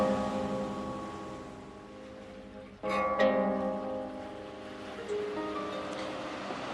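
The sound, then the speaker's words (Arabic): Sea waves wash in a soft, continuous hiss that surges more strongly partway through, with a faint steady tonal hum running underneath. “تشوف البحر زي ما انا شايفه، وتسمع الموج زي ما انا سامعه”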